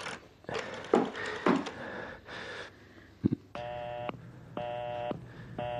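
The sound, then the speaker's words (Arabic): A telephone busy signal sounds after a home phone is dialed: after a few scattered clicks and rustles, loud, even beeps repeat in a steady on-off rhythm, three bursts with equal gaps between them. “ايه، ما حدش رد عليك؟ التليفون مشغول.”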